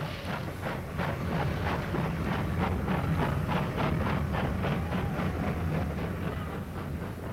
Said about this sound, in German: Und wirklich, mit mächtigem Fauchen und Prusten, zog die große Lokomotive wieder an.